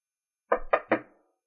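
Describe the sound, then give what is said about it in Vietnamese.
Three knocks on a door, sharp thudding raps evenly spaced in quick succession, each fading briefly before the next, with no other sound around them. “Đúng lúc đó có tiếng gõ cửa”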